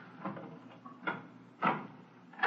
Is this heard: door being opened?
yes

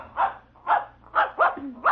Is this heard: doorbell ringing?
no

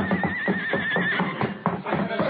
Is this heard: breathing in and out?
no

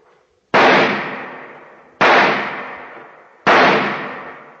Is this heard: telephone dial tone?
no

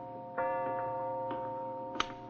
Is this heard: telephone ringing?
no

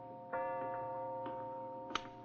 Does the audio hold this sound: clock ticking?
yes

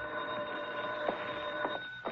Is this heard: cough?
no

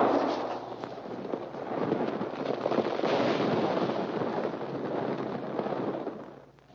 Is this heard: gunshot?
yes

